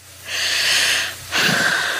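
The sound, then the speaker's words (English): Heavy, out-of-breath breathing from a woman calling in by phone: two long, rasping breaths, the first drawn out and the second slightly shorter and louder, with no words spoken. “she's always out of breath whenever she calls.”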